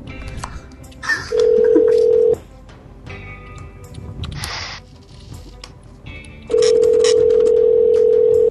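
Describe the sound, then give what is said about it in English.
A telephone dial tone plays in two long, steady stretches. Between them come clicks and brief tones as a number is dialed. “Oh, wait, I've forgotten how to dial things. Hold on.”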